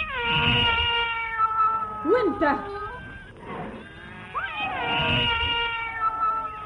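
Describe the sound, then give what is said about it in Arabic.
Cat meowing in several drawn-out, wavering calls whose pitch bends up and down, some stretching into a strained caterwaul, with short gaps between them. “انتوا زي القطط تاكلوا وتنكروا الخير. انا انت قطة قطة.”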